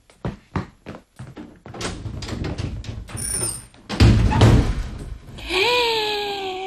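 A door being opened: a run of sharp taps and clicks, then heavier thuds and knocks, ending in a sustained creaky, whining tone.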